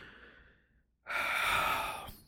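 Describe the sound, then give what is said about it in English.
A deep breath taken during a guided tapping exercise: a soft, airy intake fades away, and after a brief silence a long, loud breathy exhale like a sigh carries to the end. “take a nice big deep breath”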